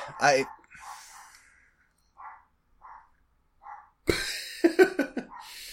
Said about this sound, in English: Now that I think the dog is barfing. I don't even know what that noise is.